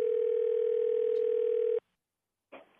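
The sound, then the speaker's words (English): A phone rings with an incoming call as a single steady, loud electronic tone that holds for almost two seconds. It cuts to silence, then a short burst of noise follows. “She's calling me. I'll let it go to voicemail.”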